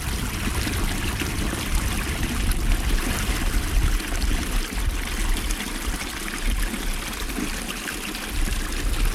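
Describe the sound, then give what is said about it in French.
Small stream of glacier meltwater from the melting Okjökull glacier running down a slope, a steady, full rushing and trickling of water that continues unbroken throughout with no voices. “Voilà, qu'un petit ruisseau surgit. C'est de l'eau de glacier. C'est qui reste du glacier Okjökull qui est en train de fondre et de dévaler la pente.”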